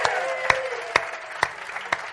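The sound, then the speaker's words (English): Applause for a participant comes through as five sharp, evenly spaced claps, fairly faint, with quiet gaps between each one. “Everyone give Kenny a round of applause.”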